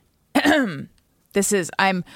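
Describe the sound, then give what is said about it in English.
A person pointedly clears their throat: one drawn-out, voiced rasp, then a short pause and two quicker clearings in a row. Each is loud and stands alone, with silence between. “I'm pointedly clearing my throat like, hello, where's my invitation?”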